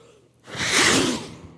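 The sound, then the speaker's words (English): A forceful breath blown out by a voice imitating God breathing life into a body: quiet at first, then a loud, breathy whoosh swells and fades away over about a second. “And he breathes his life breath into the body, and it becomes human.”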